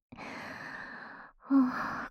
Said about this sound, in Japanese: すっごい息切れ